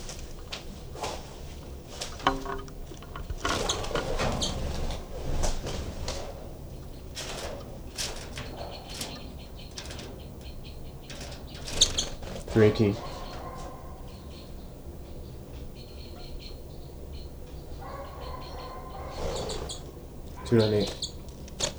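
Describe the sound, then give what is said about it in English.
Birds call intermittently, with a few faint chirps scattered through a quiet background of soft rustling. “Birds here.”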